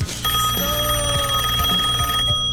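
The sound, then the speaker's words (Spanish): Ringing tone of an outgoing telephone call, a single sustained electronic ring lasting about two seconds over a low, busy background before cutting off; no voices. “Bueno, lo voy a llamar a Umbi, a ver qué carajo quiere.”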